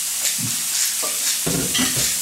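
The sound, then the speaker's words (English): Meat sizzles as it fries seasoned side down in a pan, a steady crackling hiss with a few soft low bumps and scrapes scattered through it, with no voices. “Now that you put them seasoned side down the pan, I want you to season the other side with salt and pepper.”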